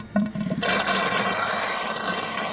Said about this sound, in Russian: Водичка беленькая. Теки, пожалуйста, давай. Боже, наконец-то, как хорошо. Горячая вода.